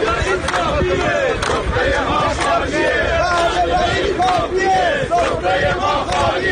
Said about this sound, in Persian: و صدای بازنشستگان شرکت مخابرات در اهواز.